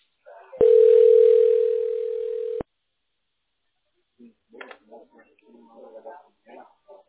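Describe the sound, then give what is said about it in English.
A telephone dial tone plays while a call to a tax relief line is dialed: a steady, loud, level tone lasting about two seconds that cuts off abruptly, followed by faint talk. “Okay, we're dialing the tax specialist.”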